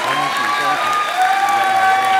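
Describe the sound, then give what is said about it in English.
Thunderous audience applause, a loud, steady roar of clapping mixed with crowd noise that fills the whole clip. “I will now savor my few remaining seconds of fame to what I hope is a round of thunderous applause.”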